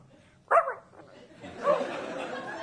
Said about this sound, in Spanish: ¿Ahí me pueden sacar este perro de acá? ¡Qué pesado! ¿Qué hace este perro? ¡Qué molesto!